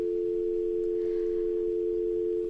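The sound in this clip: A continuous telephone tone sounds on the line after a call has been cut off: one unbroken, mid-pitched hum at constant loudness from start to finish, alone.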